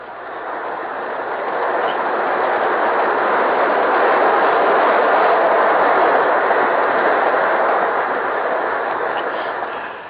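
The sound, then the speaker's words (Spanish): A train approaches as a broad, steady rumble that swells over the first two seconds, then holds loud and even before easing slightly at the very end, with no voices. “Por ahí viene el tren.”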